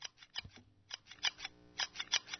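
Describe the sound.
Scissors snip in a quick series of many crisp, faint cuts, some coming in close pairs and with short pauses between the groups.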